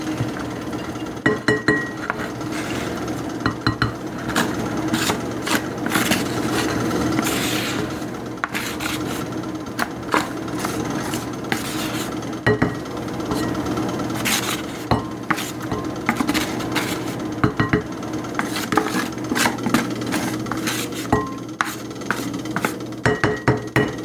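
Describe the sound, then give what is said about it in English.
Clinks and scrapes come from drained rice being handled in a metal strainer and tipped into a bowl, a busy run of many sharp clatters over a steady scraping rasp, with no talking. “we're putting it in the strainer or colander, whichever you want to call it. And then we put it into the bowl.”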